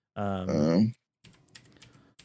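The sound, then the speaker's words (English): Typing on a computer keyboard: a little over a second of soft, irregular clicks that follow a brief voiced sound and a short pause. “I'm going to type this up.”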